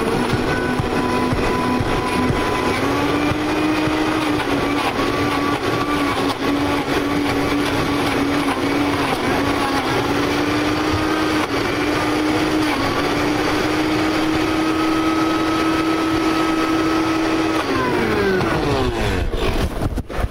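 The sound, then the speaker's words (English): A Vitamix blender runs with the lid on and a tamper pushed through the center hole, crushing ice: a loud, steady motor whine that holds throughout, then falls in pitch near the end as the machine winds down. “And I have the lid on the container, and I stuck the tamper down through the hole that's in the center of the lid. And I'm going to turn on the Vitamix.”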